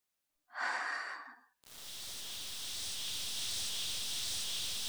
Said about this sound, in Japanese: ガスが入っていく。吸って、吐いて、